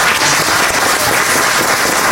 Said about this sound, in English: I love the applause, by the way.